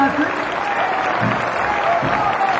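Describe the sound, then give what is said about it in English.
Applause from a concert audience greets a band as its members are introduced, a dense, even wash of clapping with a voice speaking over it throughout. “would you please give them a nice welcome? Applause.”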